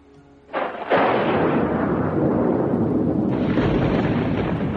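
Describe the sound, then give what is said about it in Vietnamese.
Thunder and lightning strikes crash in with a sudden loud burst, then swell into a sustained, deep roar that rumbles on without pause to the end. “Đúng lúc này một đạo thanh âm kinh bạo như sét đánh giữa trời quang vang lên. Từng đạo lôi điện lớn như thùng nước từ trên trời giáng xuống.”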